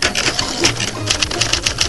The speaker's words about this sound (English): Push-button selection of preset sentences, most useful for instructions to salesmen and many other things, is all that's necessary. The almost magic typewriters do the rest.